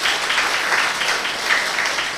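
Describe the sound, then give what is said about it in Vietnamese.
An audience at a Korean language event applauds to welcome Korean language students. The many overlapping hand claps form a dense, steady, even roar throughout. “Cho một tràng vỗ tay thật lớn để chào đón”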